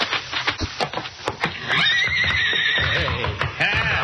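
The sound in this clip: A stallion kicks its stall in a barn, a quick run of sharp thumps, then breaks into a loud, long, high whinny that wavers and shudders through to the end.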